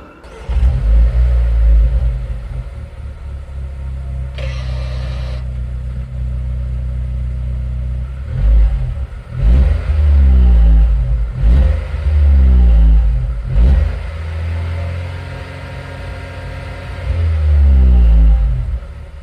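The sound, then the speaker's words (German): An unusual, odd-looking vehicle's engine revving as it pulls away, a loud, rough drone with repeated surges in which the engine pitch climbs and drops several times before settling. “Und wie dieses skurrile Fahrzeug klingt, das hören wir uns jetzt an.”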